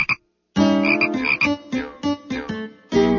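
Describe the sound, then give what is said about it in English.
A frog croaks in a tank, giving one short croak, then after a pause a series of loud, throaty, buzzing croaks of uneven length with brief gaps between them. “Frog lives in a tank.”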